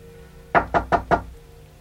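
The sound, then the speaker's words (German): Four firm, evenly spaced knocks sound on a door, loud and crisp against near silence, with no other sound between them. “Es hat geklopft.”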